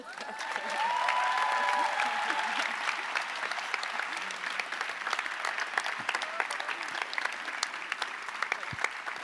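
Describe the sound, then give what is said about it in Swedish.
Loud applause from a church conference crowd honoring a departing colleague, a thick, continuous wash of many hands that stays strong and steady for about nine seconds. “Stor applåd”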